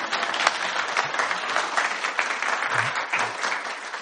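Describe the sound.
An audience applauds to welcome a guest, the speaker's wife, with even, moderately loud clapping that holds steady for the whole stretch.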